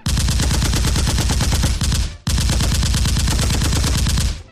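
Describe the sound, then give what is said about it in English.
Rapid gunfire from next door rattles in two long, loud, continuous bursts separated by a brief break, each made of dense, fast repeated shots. “How fucking stupid are you to pull a gun right before some motherfucker next door decided to blow someone away?”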